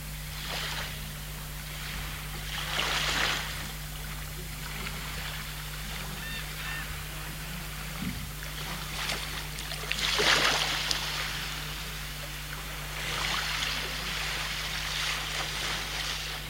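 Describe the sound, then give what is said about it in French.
A sea-wave sound effect in a radio drama, set at the seashore: broad washes of surf swell and fade a few times over steady low noise and a constant hum. “Je m'écroule par terre et me retrouve au bord de la mer.”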